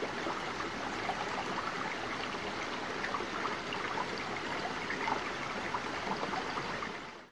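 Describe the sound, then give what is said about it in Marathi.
River water babbling on the bank of the Ganges, a faint, continuous rushing hiss of flowing water with no pauses, tapering off at the very end. “नदीच्या पाण्याचा कलकल असा आवाज”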